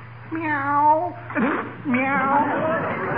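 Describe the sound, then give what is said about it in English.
A human voice imitates a cat meowing: two drawn-out, wavering meows separated by a short, noisy burst, fairly loud and alone. “Must be that darn cat that keeps coming in here. Kitty, kitty, kitty. Where are you, kitty?”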